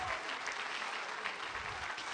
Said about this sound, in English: Somebody say praise the Lord. Clap your hands unto him and bless his name.